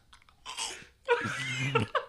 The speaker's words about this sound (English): Is that onion delicious? It looks pretty good. I'm gonna take a bite.